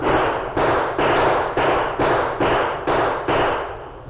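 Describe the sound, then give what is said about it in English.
Revolvers fired repeatedly as guns are emptied at a uniformed figure and Apache fighters, a steady run of many loud, heavy booming shots, evenly spaced about twice a second, each trailing a long noisy decay. “Grabbing his guns, he raised on his elbows and emptied them at a uniformed figure and a few Apaches who had just moved”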